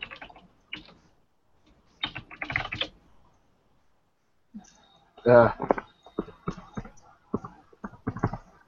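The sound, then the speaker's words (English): Typing on a computer keyboard: scattered bursts of quick key clicks come in a few clusters separated by pauses, with a voice speaking briefly in the middle. “I'm going to type out what I think you said.”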